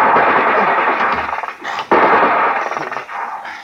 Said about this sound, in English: Oh, it's 50 caliber. I wish they would send boarders, then they'd stop firing.